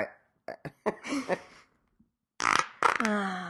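Fart sounds: a few short sputtering bursts followed by two longer, louder blasts, the last one carrying a buzzing, tonal quality.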